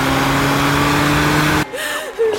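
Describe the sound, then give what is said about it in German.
A car engine drones hard with the gas pedal floored on a motorway. The loud, steady roar cuts off abruptly after about a second and a half, leaving quieter sound. “Dann gib Gas. Ich trete schon den Boden durch, Mann.”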